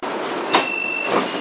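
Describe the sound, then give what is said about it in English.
Beijing Subway Line 10 train arriving at Liuliqiao station: a steady rushing rumble with a thin, high whine, and two brief airy bursts, one sharp and one softer, rising out of the noise. “六里桥站到了。We are arriving at 六里桥 station.欢迎乘坐地铁十号线列车”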